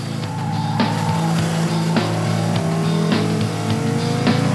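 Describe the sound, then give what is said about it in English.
A V10 race car spins its wheels off the starting line toward the first corner, a loud, steady engine drone broken by a few sharp bursts. “Masses of wheel spin off the line down to the first corner. He has got to tread carefully. He knows that that big V10 landmine will bite.”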